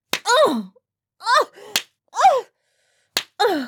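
Three sharp, loud slaps ring out during a heated sexual encounter. They come in an irregular rhythm, each separated by drawn-out vocal groans with wavering pitch.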